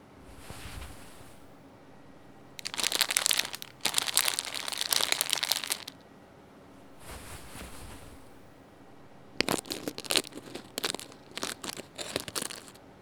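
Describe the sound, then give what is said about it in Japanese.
A plastic bag of baking soda is torn open with two loud bursts of crinkling and crumpling, separated by quieter rustling. “お次は重曹を入れまーす。ほれ、袋を開封。”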